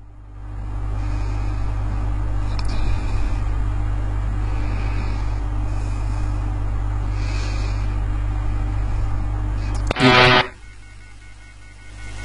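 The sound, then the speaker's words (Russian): A car engine in a video game holds a steady low rumble throughout, with a brief loud burst of noise near the end. “Так, едет Кэдди внезапно. Это очень странно, что оно едет.”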